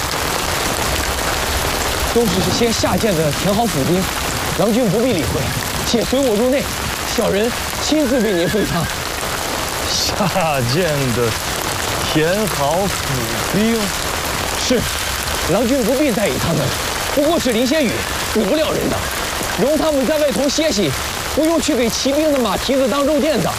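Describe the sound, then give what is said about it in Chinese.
Heavy rain pours down on a waterlogged shed, a dense, constant hiss filling the whole stretch while voices speak over it. “是我眼花了吗？如此大雨，那个棚子里都水了。”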